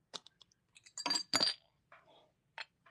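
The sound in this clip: A drink being cracked open: a few light clinks and taps around a brief, louder hissing burst, all quiet and with no talking.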